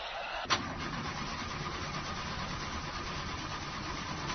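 Car engine cranking but failing to start, with a suspected clutch plate fault; a sharp click opens a steady, loud mechanical churning that runs on without catching.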